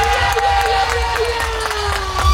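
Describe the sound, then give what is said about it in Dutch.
Crowd cheering and applause for the village of Odoorn at a village festival in south-east Drenthe. The noise is a sustained, loud mass of shouting and clapping, with a steady held tone running through it. “En dan wil ik een heel groot applaus voor Odoorn. Odoorn, daar was het applaus voor.”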